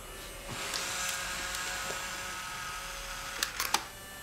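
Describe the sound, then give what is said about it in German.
Camera shutter clicks as a farewell photo is taken: a few quick, sharp clicks close together near the end, over a faint steady hum. “Achtung, Foto.”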